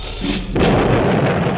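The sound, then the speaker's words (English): A rocket blast-off sound effect: a deep, loud roar swells abruptly about a third of the way in, then rumbles on steadily and broadly to the end. “It's blast off time on Bunny Radio. We're going into orbit.”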